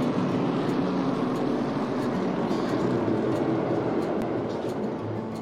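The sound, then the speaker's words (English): A field of 24 NASCAR stock cars starting a 200-lap race at North Wilkesboro Speedway, a dense, steady, loud engine roar that carries evenly throughout. “they come, 24 of NASCAR's best to race 200 laps for $1 million to win. Jeff Gordon on pit road with the pace car, and Ray Evernham waves that green flag. We're underway, and Daniel Suarez with the jump.”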